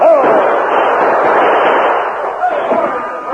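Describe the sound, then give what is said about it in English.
Gunfire as outlaws open fire in a Western radio drama, a continuous roar of overlapping shots and bursts with no clear gaps, loud throughout and easing slightly toward the end. “The Lone Ranger allowed the outlaws to open fire first.”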